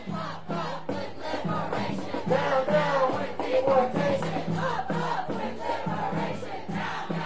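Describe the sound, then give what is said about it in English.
Anti-ICE protesters march through Milwaukee streets chanting in rhythmic unison, many voices repeating a steady cadence without a break. “That's the sound that could be heard throughout the streets as anti-ICE protesters marched from Cathedral Square Park to the U.S. Citizenship and Immigration offices located on the Lower East Side of Milwaukee.”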